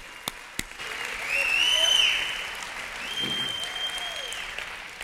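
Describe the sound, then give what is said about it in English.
Applause from an audience at a church service, a soft, steady patter of many hands that swells and then gradually fades. “Let's applaud the Lord, His greatness. Applaud the Lord, His miraculous power. Applaud the Lord.”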